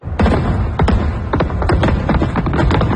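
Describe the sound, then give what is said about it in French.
Fireworks at midnight over the waterfront quays in Toronto at the end of a live-streamed event: a dense, irregular run of many sharp pops and dull thuds, loud and without a pause. “Alors, feu d'artifice pendant 10 minutes.”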